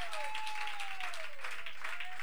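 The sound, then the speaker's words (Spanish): Congregation applauding at a Spanish-language church service: dense, steady clapping that holds at an even, fairly loud level for the whole stretch, with no pause and no talk. “Denle un aplauso al Señor, que Dios es bueno.”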